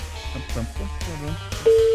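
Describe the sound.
Ringback tone of an outgoing telephone call during a phone-in prize game: people talk first, then a single steady, loud tone at one pitch starts near the end and holds.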